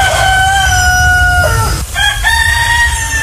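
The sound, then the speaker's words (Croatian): A rooster crows in the morning with loud, harmonic, drawn-out calls in two long phrases separated by a brief break, the first sliding slightly downward at its end. “Ipak, ajmo iskreno, ljepša je ujutro pjesma Pijetla.”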